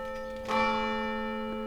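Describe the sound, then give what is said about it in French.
Church bell ringing from the tower of a village church. The bell's rich, humming tone is already sounding when a fresh strike adds a brighter clang partway through, then rings on steadily. “On va laisser passer la sonnerie qui est égrenée par le clocher de l'église qui est juste derrière moi”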